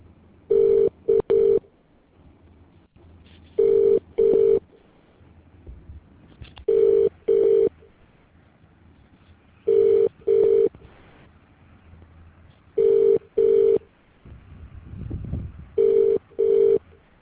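Telephone keypad tones sound on a call to an automated phone menu for Fuji Electric Asia Pacific: six pairs of short, steady beeps repeat about every three seconds over a low, quiet line hiss.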